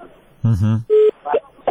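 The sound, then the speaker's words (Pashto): Steady telephone tones beep twice on a radio call-in line as the caller is cut off. Brief bursts of voice come between and before the two beeps. “بله صاحب ستاسو ټلیفون قطع شو.”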